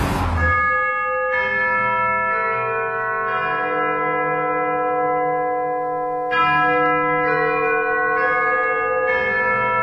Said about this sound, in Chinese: 钟声敲到11点